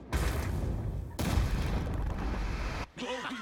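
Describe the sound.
A volley of gunfire erupts in a loud, dense roar that runs in two long stretches before cutting off, and a voice follows.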